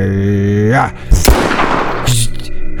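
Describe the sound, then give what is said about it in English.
Gunfire in a video game: a couple of sharp, loud, noisy bursts ring out after a voice speaks, over a steady game background hum. “Are you shooting him or am I? You go ahead and shoot him.”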